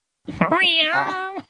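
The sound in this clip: A cat lets out a drawn-out, wailing yowl, about a second long and rising then settling in pitch, as two cats fight underfoot.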